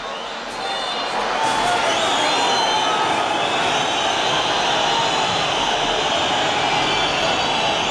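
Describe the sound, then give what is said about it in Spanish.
A stadium crowd at El Molinón reacts after a Sporting win, a broad, sustained roar that swells in over the first second and then holds steady and loud. “El Sporting gana en el Molinón, eso no siempre sucede, pero ha pasado varias veces, alguna vez esta temporada, y el público del Molinón reacciona así.”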